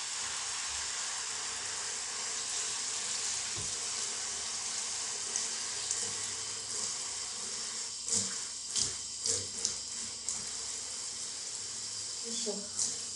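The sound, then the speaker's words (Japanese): A shower runs as it is left on to warm up, giving a steady broad hiss of spraying water, with a few brief knocks and splashes later on. “ちょっとシャワー出して、ちょっとお湯が出るまで。”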